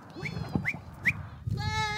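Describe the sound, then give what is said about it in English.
Goats bleat while climbing trees in Morocco: a few short, nasal, rising calls in quick succession, then a longer, steadier bleat at the end, fairly faint. “So goats in trees, it's like a Moroccan mirage. Yeah, the first time I came to Morocco and I saw these goats climbing the trees, I thought I was hallucinating.”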